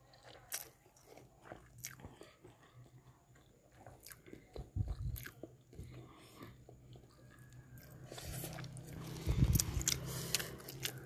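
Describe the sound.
Someone chewing a mouthful of food: quiet, irregular crunches and wet bites stretch across about eleven seconds, with a few stronger crunching bursts.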